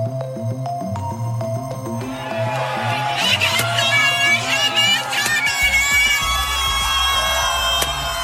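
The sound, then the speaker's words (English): Supporters cheer in a Los Angeles street, celebrating a court ruling that ended a pop singer's conservatorship. The crowd noise of shouts and screams swells after the first couple of seconds and stays loud until the end. “That is the sound of the Free Britney supporters on the streets of LA on Friday,”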